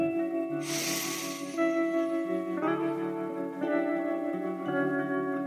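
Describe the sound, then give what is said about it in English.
A deep inhale through the nose runs for about a second as a breathy rush, over steady tonal music that continues throughout. “Deep inhale through the nose.”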